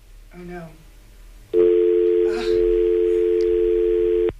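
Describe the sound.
A telephone dial tone after the phone system dropped a call. It holds one steady, loud pitch for nearly three seconds and then cuts off abruptly, with a brief voice just before it begins.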